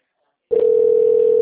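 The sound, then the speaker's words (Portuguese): A telephone dial tone sounds after a call is cut off. It starts suddenly after a moment of silence and continues as one loud, steady, flat-pitched tone to the end. “Caiu de novo, ele ligou na minha cara.”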